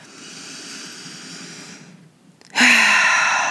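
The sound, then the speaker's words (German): Deep breathing during a guided meditation for energy cleansing: a long, soft, airy breath, a brief hush, then a louder rushing breath that holds steady to the end. “Einmal tief einatmen”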